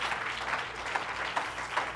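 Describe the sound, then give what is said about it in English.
Church audience clapping hands together in a steady rhythmic beat, about five evenly spaced pulses, fairly faint and without talk. “Would you clap your hands in this place?”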